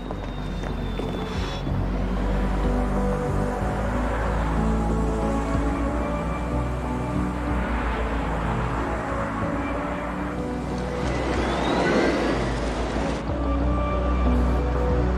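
A car drives along on a long trip, giving a steady low engine drone and road rumble that holds at an even level throughout, with no talk.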